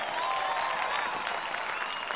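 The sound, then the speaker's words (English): Applause from an audience fills the whole moment, a steady, even wash of clapping with no clear peaks or pauses. “You get a round of applause.”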